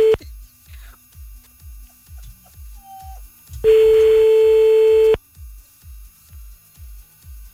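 Telephone call tones: steady, regularly spaced short pulses of a line signal, interrupted by a loud sustained steady tone lasting over a second, after which the rhythmic pulses resume; no voices.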